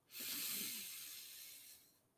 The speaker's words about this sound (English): Let's start by taking a nice big inhale.